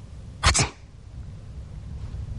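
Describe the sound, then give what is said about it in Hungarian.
A single sneeze acted out by a voice in a spoken story: two quick, loud bursts within half a second, then quiet low background. “tüsszentett, amint tetszik látni.”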